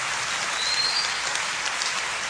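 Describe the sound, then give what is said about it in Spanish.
Applause from a church audience during a sermon: dense, steady clapping that holds an even level throughout the short stretch, with no voices heard. “¿Te quiero aplaudir? Sí.”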